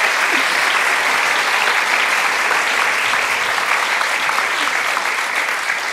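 Audience applause welcomes guest author Esther Freud at an All About Women event in Sydney, a dense, even wash of clapping that holds steady and loud for the whole stretch, with no talk over it.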